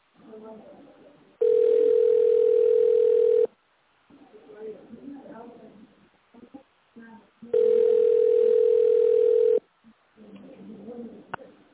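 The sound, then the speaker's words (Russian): Telephone ringback tone on a call to a company line while waiting for an answer: two long, steady mid-pitched beeps of about two seconds each, separated by a gap of a few seconds filled with faint line noise. “Вы позвонили в научно-производственное объединение «Гидротехпроект». Дождитесь ответа.”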